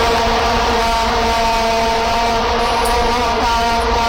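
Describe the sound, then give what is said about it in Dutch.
Massed vuvuzelas blaring at the 2010 World Cup in South Africa, a loud, unbroken buzzing drone of many horns on a steady pitch, with no talk over it. “Nee, zo klonken die vuvuzela's. Oh ja. Kun je dat nog herinneren? WK 2010 in Zuid-Afrika.”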